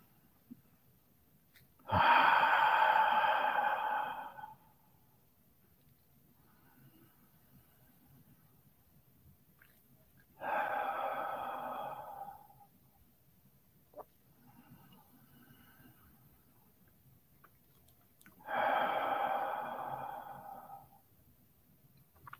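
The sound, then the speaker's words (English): Deep breaths drawn in and let out: three long, slow, airy breaths, each lasting a couple of seconds and evenly spaced, with quiet stretches between them and no talk. “take a 3 good deep breaths all the way down to your toes.”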